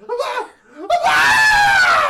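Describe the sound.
A voice imitates a woman screaming in horror, bloody-murder style. A brief burst of vocal sound is followed by a loud, high, sustained shriek.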